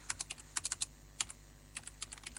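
Typing on a computer keyboard to enter an ID card number into a voter-lookup website: many quick, faint clicking keystrokes in short irregular bursts with brief pauses between them.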